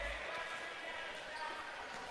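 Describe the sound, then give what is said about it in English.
A basketball dribbled during a high school boys basketball game, its muffled bounces blending into steady crowd noise and talk. “Sheen uses his dribble”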